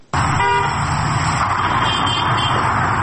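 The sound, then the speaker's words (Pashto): Busy street traffic in Kabul's market area during a curfew, with a steady, dense roar of cars and a brief car horn toot near the start over the continuous noise. “په بازارونو کې تګ راتګ ډېر دی، پلورنځي بیرته دي او موټر هرې خواته ځي او راځي.”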